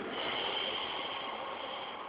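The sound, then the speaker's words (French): A long, steady exhale comes during a breathing exercise while a posture is held. It is soft and airy, with an even hiss that eases slightly toward the end. “Gardez la posture, expirez.”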